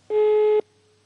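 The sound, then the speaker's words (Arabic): A telephone busy signal after a dropped call on a call-in line: one steady, mid-pitched tone lasting about half a second, then a faint lingering hum. “للأسف انقطع الخط”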